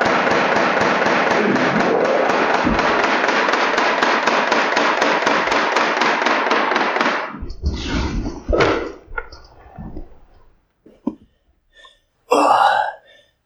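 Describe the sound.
A gun taken for an airsoft gun fires in a rapid, unbroken stream of sharp shots for about seven seconds, then a few scattered, separate pops follow with gaps between them.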